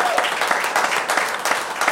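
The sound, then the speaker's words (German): Applause from an audience honouring a volunteer-run association's work, a steady, dense wash of clapping that carries evenly through two seconds. “Ihr glaubt, das hat nochmal einen extra großen Applaus verdient.”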